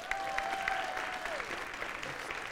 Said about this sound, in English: Give her a hand.